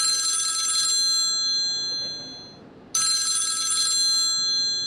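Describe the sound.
A telephone rings after a number is dialed, giving two long, bright electronic trills of over a second each, separated by a quiet pause.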